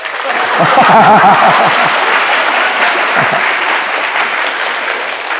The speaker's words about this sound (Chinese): 这个我的声音不够那么高，所以你们空拍手了。